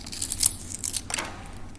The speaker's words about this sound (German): Ungefähr hier fängt man dann den Stift an zu schnitzen. Man fängt von oben an und arbeitet sich dann langsam auf die Gegenseite.